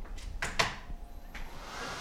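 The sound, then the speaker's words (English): A felt needle loom with 782 needles and two running motors gives a loud, steady mechanical hum and hiss, broken by a few sharp bursts of hissing noise. “And there's 782 on this loom here, and we've got two motors on it. It's kind of loud.”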